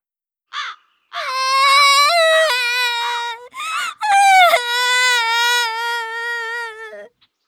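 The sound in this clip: A girl crying in a park: loud, high, drawn-out wailing sobs in a few long cries broken by short catches of breath, with no other voices.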